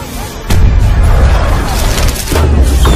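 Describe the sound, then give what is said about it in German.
Cannons fire from a ship, their balls launched toward an opponent: two heavy, loud booms strike at roughly two-second spacing. Each blast leaves a long, rumbling low roar between the shots. “Shen ließ nun aus allen Rohren feuern, aber Poe wehrte alle Kugeln ab”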